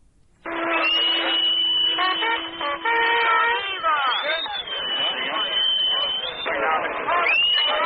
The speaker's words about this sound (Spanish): Los pitidos que se escuchan son hechos por marineros de la US Navy